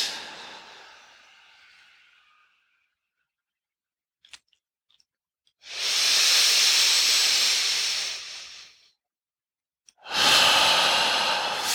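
Deep, forceful breathing out during a breathing exercise, belly pulled in to push all the air out: a fading hiss, then a long, loud, hissing exhale and another strong breath at the end, separated by near silence.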